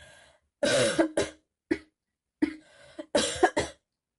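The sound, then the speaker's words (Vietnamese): A man's coughing fit: a string of harsh, raspy coughs in uneven bursts, some clustered tightly and others spaced apart. The coughs are loud and stand alone with no speech. “Lạc Nghệ gầm nhẹ, sau đó ho một tràng.”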